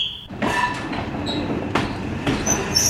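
Train sounds at the SNCF station in Chamonix: a steady rolling rumble with sharp high wheel squeals and a few metallic clacks, and no voices.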